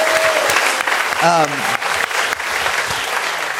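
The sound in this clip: An audience at a live comedy show applauds in a brief, lively burst of clapping, with a short cheering whoop rising above it partway through.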